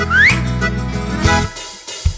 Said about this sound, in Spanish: En lugar de barba, vamos a hacer un silbido.